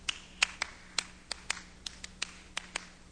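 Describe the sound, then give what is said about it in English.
Crisp hand claps from two people performing a minimalist clapping piece, around a dozen sharp claps in an uneven interlocking rhythm, each one short and dry against a quiet background. “Really does, because it is clapping music. It's for two people clapping.”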